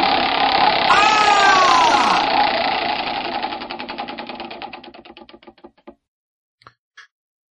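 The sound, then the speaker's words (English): A prize wheel is spun, starting with a dense burst of rapid clicking that gradually slows into separate ticks and stops, followed by two last isolated clicks. Brief voices are heard over the opening. “let's spin the wheel for the final question”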